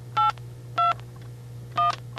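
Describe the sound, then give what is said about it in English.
Touch-tone telephone dialing: three short electronic keypad beeps, each a different pitch pair, spaced apart over a faint steady low hum. “Seven-digit dialing becomes a thing of the past.”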